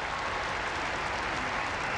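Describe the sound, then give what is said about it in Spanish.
Applause for catechists from a large crowd of pilgrims in St. Peter's Square: steady, dense clapping that holds at an even loudness throughout. “Así que un aplauso para los catequistas, para todos. Un aplauso ai catechisti, a tutti.”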